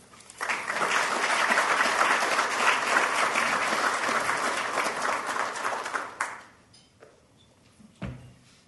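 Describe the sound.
Conference audience applauding to welcome a closing keynote speaker, a full, steady burst of clapping that rises quickly and holds for about six seconds, then thins out and dies away.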